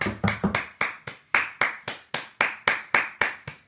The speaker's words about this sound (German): Du bist ja am Klatschen.